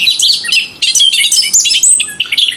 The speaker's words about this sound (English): That sound is unique. Nothing else sounds like the bobolink.